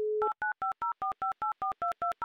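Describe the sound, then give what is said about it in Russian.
A telephone number being dialed: a steady dial tone gives way to a quick, even run of many short touch-tone beeps, each a bright two-note chord, sounding cleanly with no talk. “Итак, номер мы набрали, все, что могли, как говорится, сделали.”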